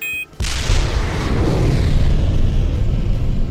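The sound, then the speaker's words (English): A sound-effect rocket takes off with a sudden blast, then a loud, sustained rumbling roar that holds steady across the whole stretch, with no voices. “There goes Gus the Rocket! He's really moving!”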